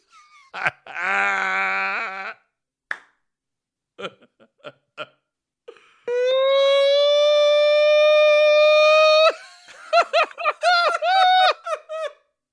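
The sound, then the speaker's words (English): A voice imitates a siren: a short wavering wail, then a long steady high-pitched wail of about three seconds, followed by choppy, laughing vocal bursts. “That's the siren. The siren.”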